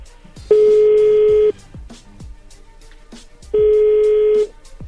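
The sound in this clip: Telephone tones sound as a number is dialed: two long, steady, mid-pitched tones about a second each, with quiet gaps between, like an outgoing call ringing.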